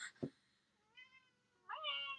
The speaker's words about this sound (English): The cat wants to be a companion.